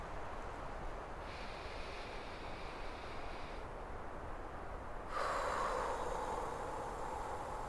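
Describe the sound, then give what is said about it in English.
A deep, slow breath taken during a guided relaxation, heard as a soft, airy rush of breathing noise that runs steadily and swells slightly louder toward the end. “You've done well. Take a deep breath.”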